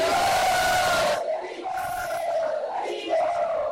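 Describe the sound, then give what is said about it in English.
A crowd loudly chants a welcome to a visiting swami at a religious gathering. Many voices shout together in sustained, strong unison phrases that carry through the whole stretch. “Let us welcome Maharaj by loudly chanting 3 times.”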